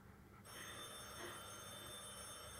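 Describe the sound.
An old telephone bell starts ringing abruptly in a home: a bright, metallic trill that holds steady and unbroken to the end, fairly faint.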